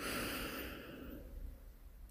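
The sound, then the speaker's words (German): A slow, soft in-breath during a heart-focused meditation: a single faint, airy rush that gradually fades, ending in a small click. “Und nochmal einatmen.”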